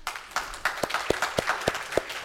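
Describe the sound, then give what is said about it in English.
An audience applauds a church worship team: a dense wash of clapping with a steady beat of sharper claps running through it. “I think we need to give our worship team a round of applause.”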